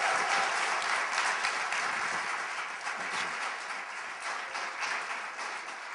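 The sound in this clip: A church audience applauds to welcome a guest speaker with dense, sustained clapping from many hands. It stays loud throughout and eases off only slightly toward the end, with no voices standing out.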